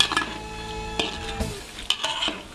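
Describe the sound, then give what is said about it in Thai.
Pork fat frying over low heat in a pan, a soft steady sizzle broken by a few light clinks and scrapes of stirring. “เราจะเจียวมันหมูด้วยไฟอ่อนๆจนกว่าจะเริ่มสุกเหลือง”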